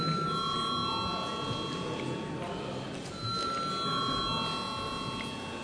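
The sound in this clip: An electric bell rings in a Latvian parliament chamber to call members to a vote. The steady metallic ringing holds high sustained tones over a broad noisy hum and breaks off briefly about midway before resuming.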